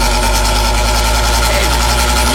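An electric fan runs with a loud, steady, low motor whir and a rough buzzing hum that holds constant throughout, with no clear change in speed.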